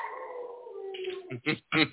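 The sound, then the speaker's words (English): Faint dog whining: a long, drawn-out whimper that slowly falls in pitch, then a few short, sharper yips. “do you have to go take care of your dog?”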